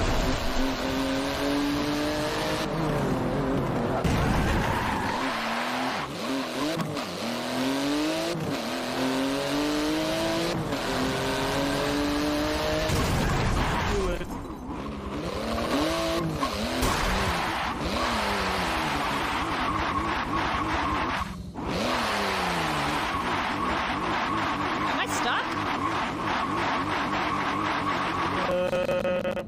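Car engine revving in a video game as the player drives, with the pitch repeatedly rising and falling as the gas is pressed and eased, continuous throughout, broken by a few short bursts of noise that suggest bumps or collisions.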